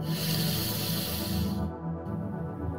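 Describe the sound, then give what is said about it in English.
A deep breath drawn in during a solar plexus chakra meditation, a soft, airy hiss lasting about a second and a half before it cuts off, over a low, steady hum. “Deep breath in”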